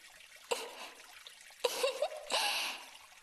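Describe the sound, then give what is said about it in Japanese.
Water poured to rinse someone in a private-room Japanese bath: three splashing pours, a short first one, then a longer one, then a sustained final gush. “お流しいたしますね。”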